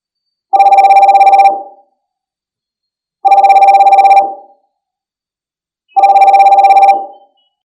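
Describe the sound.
A video call ringing tone sounds in three evenly spaced bursts, each about a second long, with silence between. It is a bright, buzzing electronic ring, fairly loud, with no voices.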